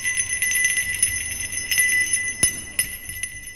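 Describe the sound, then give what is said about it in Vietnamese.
A hand bell rung with force gives a shrill, jingling peal, with high ringing tones held throughout and a few sharp strikes standing out against them. “Đoạn tay của ông ấy vận lực mà rung chuông. Tiếng chuông leng keng vang lên, nghe rất kỳ lạ, đến chói tai.”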